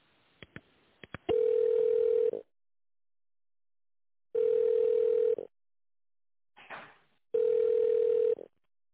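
Telephone ringback tone while a call is transferred to a wholesale department: three steady, mid-pitched tones of about a second each, separated by pauses. A few sharp clicks come before the first tone, and a brief noisy burst falls before the last.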